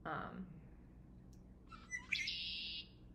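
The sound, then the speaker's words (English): A human voice imitates a red-winged blackbird, a salt-marsh bird, with a brief spoken bit first, then a short sharp note and a sustained high, buzzy trill. “could you recreate a bird sound for me from a salt marsh? Sure. This is the call of a red-winged blackbird.”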